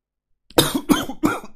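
Harsh coughing after a drink went down the wrong way: three strong, throaty coughs in quick succession, then the start of a fourth at the very end, each a short rough burst.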